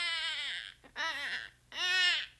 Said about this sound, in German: So, mein Bübchen, jetzt nimmt dich der Papa ein bisschen. Du musst nicht weinen, ganz ruhig.